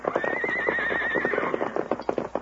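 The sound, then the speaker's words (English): A saddled army horse neighs in a wavering, high whinny of about a second, over a steady run of clip-clop hoofbeats that continues after the call fades. “It's an army horse”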